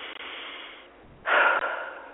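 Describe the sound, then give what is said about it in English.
A person takes a deep breath: a softer airy breath first, then a louder, rushing inhalation through the second half. “I'm going to breathe on that one.”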